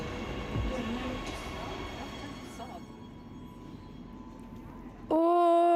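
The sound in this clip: A train ride with a steady rumble of the moving train throughout, ending in a loud, bright tonal chime.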